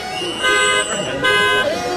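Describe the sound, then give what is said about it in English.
Car horns honk outside as a crowd of vehicles gathers in front of a mansion late at night. Overlapping horn tones sound continuously with louder swells, and voices mix in. “Quiet down out there! Quit honking your horn!”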